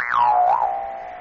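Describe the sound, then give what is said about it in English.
A modern Jew's harp with a hand-hammered, tempered tongue gives a single twanging boing. Its tone sweeps downward, wobbles briefly, then settles into a steady drone that slowly fades. “This is a modern, excellent jew's harp, one of the most difficult to buy today.”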